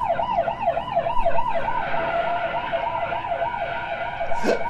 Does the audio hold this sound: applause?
no